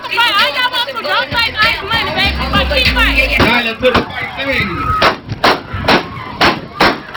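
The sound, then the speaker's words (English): A rapid series of sharp, loud gunshots at a strip club shooting, cracking out in quick succession after a stretch of excited voices and crowd chatter. “The best is, if you count them, that's 7 shots.”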